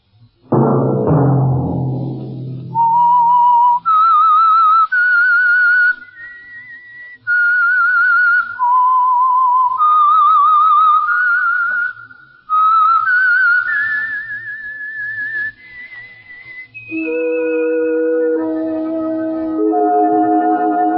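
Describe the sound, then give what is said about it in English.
A whistled tune, a clear solo melody of sustained and gliding notes in the upper register that begins after a short low thud, with brief pauses between phrases, loud and alone without talk. “Let that whistle be your signal”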